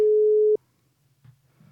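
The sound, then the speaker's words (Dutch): A telephone tone sounds while a call is placed to a coach: one steady, mid-pitched tone lasting about half a second stops abruptly, followed by near silence and faint low noise. “Dus ik ga haar even bellen.”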